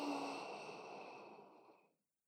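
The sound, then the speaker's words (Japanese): A single slow breath out during a guided breathing exercise, soft and airy, fading gradually before stopping into silence. “吸ってー、吐いて”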